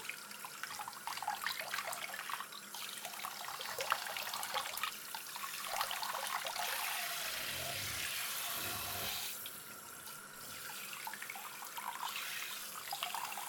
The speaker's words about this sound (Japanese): お湯は熱くないかな。では、頭にお湯をかけますね。